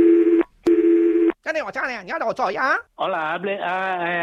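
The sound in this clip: Telephone tones as a call is transferred: two long, steady tone bursts separated by a short gap, then a stretch of warbling, shifting tones, and finally a sustained layered tone.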